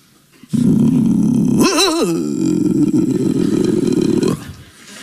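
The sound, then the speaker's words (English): A dog growls inside a house, a low, rough, sustained rumble of about four seconds with a brief louder, wavering tonal swell near its start, then the sound cuts off. “Is that a dog? Yes, that's my dog.”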